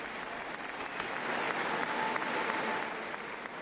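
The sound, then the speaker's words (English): Applause from a large crowd in Oslo welcoming the new king, a steady wash of clapping that swells after the first second, holds full for a couple of seconds, then eases slightly near the end. “so many people turning out there to welcome the new king. So those the live pictures coming into us from Oslo.”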